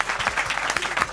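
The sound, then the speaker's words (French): Applause from an audience welcoming a music track: a brief, dense burst of many hands clapping, steady and fairly loud for about a second. “Applaudissements s'il vous plaît.”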